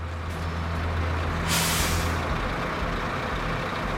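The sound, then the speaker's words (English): A flatbed truck comes to a stop as it rounds a corner, its low diesel rumble running throughout and a sharp hiss of air brakes bursting out midway before the engine settles to idle. “As the flatbed starts to round a corner, it comes to a stop.”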